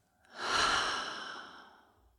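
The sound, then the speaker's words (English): A single deep, airy breath during a guided yoga relaxation swells softly and then fades slowly. No voices accompany it. “And let's take one more deep breath in through the nose. Out through the mouth.”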